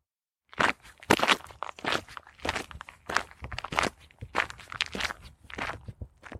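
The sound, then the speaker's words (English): Footsteps crunching along a trail down a valley toward a country park, many firm steps in a steady walking rhythm on a gritty path, clear and without talk. “Blimey, it's quite a walk, quite a trek down the valley one side and through the village, up the valley on the other side into Silverdale Country Park.”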